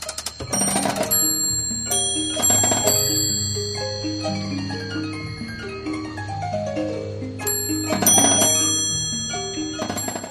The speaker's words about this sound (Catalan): És una caixa de música suïssa de 1820, i sona així.